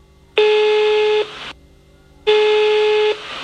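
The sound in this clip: Telephone ringback tone from an outgoing call: two long, steady electronic tones of equal pitch, each about a second, separated by a pause, with a short echo trailing each one and no voices.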